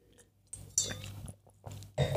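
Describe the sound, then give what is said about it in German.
Faint sips from a drink: a few soft, wet slurps and swallowing noises in an otherwise quiet moment, with no talking. “Trinke jetzt noch mal ein Schlückchen”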